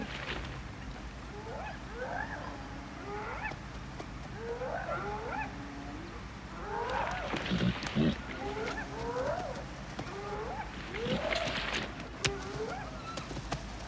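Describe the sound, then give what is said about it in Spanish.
A pair of lions approaching oxen at night gives repeated low, grunting calls in a loose rhythm, moderately loud over a steady background hiss. “Una pareja de leones se acerca sigilosamente a los bueyes.”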